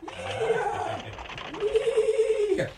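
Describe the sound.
A little horse pulling a cart whinnies twice, each call a loud, quavering, harmonic neigh that rises and then drops away, with a short pause between the two.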